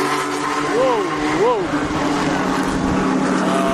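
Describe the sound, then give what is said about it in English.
Race car engines roar during a race, a dense, continuous and loud mechanical din with a couple of brief engine whines sweeping up and down early on. “Whoa, they're racing now. Oh, man, it's nice to see. It's just, it's the sound.”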